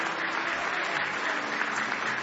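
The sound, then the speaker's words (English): Hand clapping from a church audience in praise during a morning service, a dense, steady, even stream of claps. “Give him one more hand clap of praise if you love him.”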